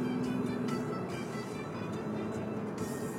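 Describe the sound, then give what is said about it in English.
Steady road noise of a car driving along rural back roads, a continuous low rumble and hiss at an even level with no talking. “Driving out these back roads.”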